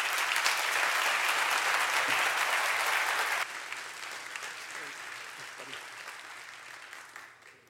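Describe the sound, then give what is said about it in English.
An audience at a church anniversary celebration applauds to welcome a pastor to the stage. The clapping is loud and dense at first, then drops abruptly to a softer patter that fades out toward the end. “Would you welcome Joe Whitmer? Give it up for Joe.”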